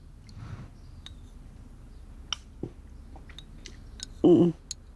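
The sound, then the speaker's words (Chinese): Soft, irregular chewing and biting as someone eats home-cooked food, with faint mouth clicks and one brief louder sound near the end. “姨妈，快尝尝，看看我的手艺有没有学到你的精髓。 我吃，我吃。”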